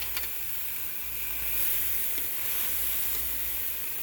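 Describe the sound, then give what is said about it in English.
Steady, bright sizzling of food searing over hot charcoal with the coals banked high, a continuous hiss that holds at an even level throughout. “Should be much hotter this time. I have the coals way higher. So hopefully we'll actually get a sear going. Here comes the sear. Sounds good.”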